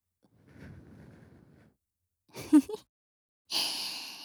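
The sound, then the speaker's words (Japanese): Breath blown into someone's ear: a soft, low, breathy rush, a short voiced sound, then a louder airy hiss of blown air. “やっぱり耳に吹きかけると反応するんだ。”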